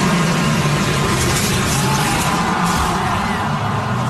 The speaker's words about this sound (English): So that sound you're hearing is her car. You see it come in the camera, airborne, going backwards at 170 miles an hour.